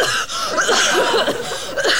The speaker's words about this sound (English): If I laugh, I'm gonna cough.